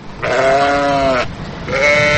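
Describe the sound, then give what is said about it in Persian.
A caged domestic sheep at a zoo bleats loudly twice: a long, wavering bleat, a short pause, then a second bleat that is cut off at the end. “این قفس همونطوری که میبینین از گوسفنداست، گوسفند.”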